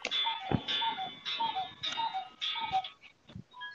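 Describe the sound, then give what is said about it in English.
Several clocks go off together, their bright ringing chimes rising and falling in a steady repeating pattern of pulses. “Well, there goes Thad's clocks I was telling you about. All of them.”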